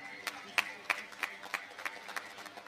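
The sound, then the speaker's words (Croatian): Rhythmic audience clapping rings out at an outdoor summer festival stage in Zenica as sponsors are thanked, a steady series of sharp, even claps at a quick pulse, fairly faint, with no voices over them. “Molim vas jedan veliki aplauz i za sve njih.”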